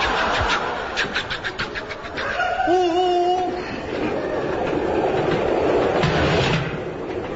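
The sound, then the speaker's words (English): A train gets under way on its rails in a comedy sketch, rhythmic chuffing giving way to a steady, loud rumble, with a brief pitched whistle-like tone partway through. “You're supposed to be driving this train.”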